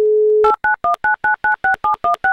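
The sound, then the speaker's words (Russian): A telephone number is dialed: a steady dial tone, then ten loud, evenly spaced keypad beeps, each a short dual-tone burst. “Давайте прямо сейчас попытаемся ей дозвониться.”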